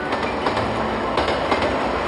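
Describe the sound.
A train pulls out of Tongliao station with a steady rolling rumble, light rhythmic clicks of wheels over rail joints and a faint metallic squeal running through it.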